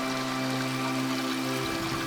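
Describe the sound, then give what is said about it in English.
Shower water running in a steady, even hiss, the spray continuous and unbroken with no pauses, alongside a faint low hum. “As you slowly step beneath the water, you can feel it gently touch your crown, cascading down over your hair,”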